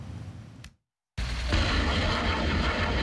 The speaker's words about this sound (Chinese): 这是台湾军方自行研制的雷霆2000火箭弹，在时隔7年后首次在实战区域进行实弹射击。